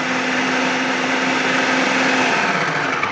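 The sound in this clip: A food processor grinds salsa made of jalapenos, tomatoes, cilantro and onion, producing a loud, continuous, high motor whine with a steady hum that holds without a break for the whole stretch.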